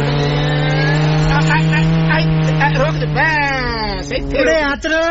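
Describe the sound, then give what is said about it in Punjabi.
A car arriving and pulling to a stop, its engine holding a steady hum before the pitch slides downward as it slows and settles. “ਗੱਡੀ ਫੇਰ ਕਰ ਲਈ ਖੜੀ”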